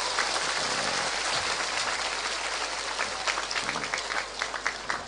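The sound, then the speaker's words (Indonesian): Applause from an audience welcoming a new convert to Islam at a religious gathering, a dense steady patter of clapping across the whole clip with some sharper individual claps toward the end. “Tepuk tangan untuk Mas Pochettino.”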